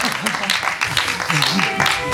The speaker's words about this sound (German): So, abschließend mit ein paar Applaus nochmal.